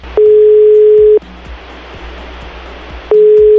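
Ringback tone of an outgoing telephone call: a steady mid-pitched tone lasts about a second, then comes a pause of roughly two seconds filled with faint line hiss and soft clicks, and then the tone starts again.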